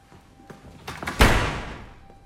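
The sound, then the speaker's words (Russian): An apartment door slams shut: a few faint knocks and clicks lead into one loud, sharp slam that rings out and fades over about a second. “повернулся к двери своей квартиры. Хлопнул дверью, он вошел домой.”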